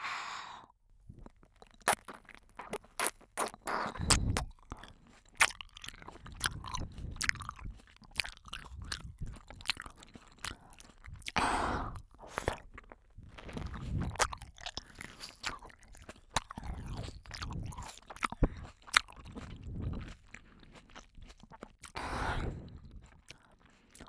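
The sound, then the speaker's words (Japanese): Fresh seedless grapes being eaten close to the ear, with many wet, crunchy bites and chews in an uneven rhythm, some bursts sharper and louder than others, along with soft breaths between them. “種の入ってないぶどうだよ。 新鮮な果実を君の耳元でいただきます。”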